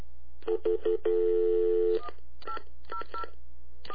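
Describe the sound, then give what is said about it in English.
Telephone keypad tones dialing a fax-back line on a three-way call: three quick beeps, one long held tone, then a few more scattered beeps, clear and with no talk. “I might have to pick up the receiver when I enter in the numbers”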